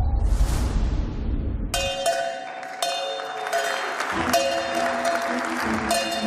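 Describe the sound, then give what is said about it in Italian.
Applause at the Saudi Aramco stock market debut, right after a countdown. A burst of clapping and cheering is followed by a bright bell that rings out several times, each strike leaving a long, shimmering decay. “Quello che state sentendo è il debutto in borsa di Saudi Aramco, la più grande initial public offer della storia.”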